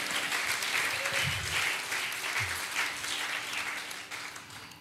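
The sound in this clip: Applause from a crowd at a daily prayer gathering, a dense, continuous patter of clapping that holds steady and fairly soft for the whole stretch.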